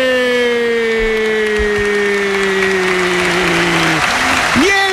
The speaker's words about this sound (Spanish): se pone en pie para aplaudir evidentemente el esfuerzo local, pero también para aplaudir el golazo de un chico que tiene algo especial, Karim Adeyemi.